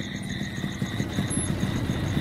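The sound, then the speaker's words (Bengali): Two motorcycles arriving give off a steady, low, rumbling engine drone with a faint pulsing throb. It stays at an even level from start to end, with no voices. “এমন সময় দুটো motorcycle আসার শব্দ পেলাম।”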